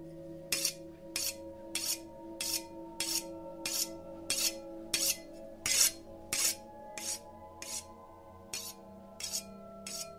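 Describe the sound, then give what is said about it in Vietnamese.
A butcher knife is sharpened against the edge of a plate: many evenly spaced, bright rasping strokes in a steady rhythm over a faint sustained hum. “cầm lên một con dao bầu. Ả mài mài mài vào cái cạnh đĩa, âm thanh nghe đến giận người.”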